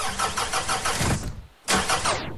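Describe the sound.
A car engine struggles to start: the starter cranks in rapid rhythmic pulses, briefly fades and drops away, then the engine catches with a sudden loud burst and runs on.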